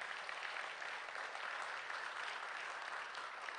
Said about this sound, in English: Give them a hand.